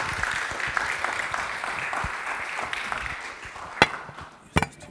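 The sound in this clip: An audience applauds to welcome guests. The clapping is steady and dense, then thins out toward the end, with a few sharp knocks as it dies away.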